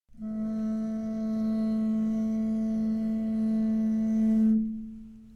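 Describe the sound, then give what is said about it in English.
Cello tailpiece bowed: a sustained harmonic tone at a steady pitch with rich overtones. It holds evenly for about four seconds, then the upper partials cut off and the low fundamental fades out alone. “Basically, I'm just bowing the tailpiece”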